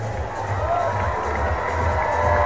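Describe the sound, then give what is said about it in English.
A baseball crowd cheers at a Riders game, a steady, loud roar that stays even throughout with no break. “Riders faithful getting loud.”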